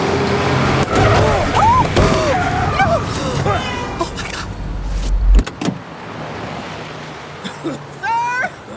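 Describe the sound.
A car drives past in a blizzard, its loud, low rushing whoosh swelling and then cutting off sharply, with wind noise throughout and voices talking over it.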